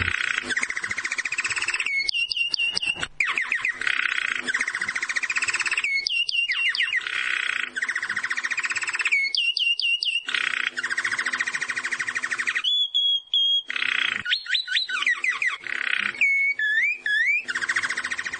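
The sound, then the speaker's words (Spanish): Song of a jilguero finch: repeated bursts of bright, high whistled notes and quick trills with rising and falling sweeps, separated by short gaps, over steady background hiss. “con los sonidos de fondo del jilguero, este es el canto del jilguero”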